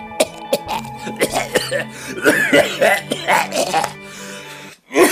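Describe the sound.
A man coughs and clears his throat before recording voice lines: a loud run of many short, rough coughs and throaty rasps with voiced grunts between them, ending in one final harsh clearing.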